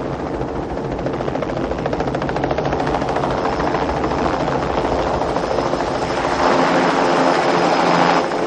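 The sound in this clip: Helicopters overhead during a police pursuit in a 1990 action film, a loud, steady, rapid rotor chopping over a broad rumble that runs throughout and swells slightly toward the end.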